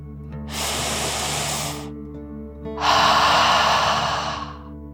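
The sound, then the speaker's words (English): A child-friendly meditation's deep breath: one long inhale, a short pause, then a longer, slightly louder exhale, both soft and airy over a steady low background drone. “Take another deep dragon breath in and out.”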